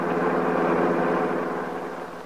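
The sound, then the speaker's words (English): Car engine running while the car is being driven, a steady mid-pitched droning hum with even harmonic tones that eases slightly toward the end. “Now, in another car, Max is driving Paul Cromwell to an appointment with his attorney.”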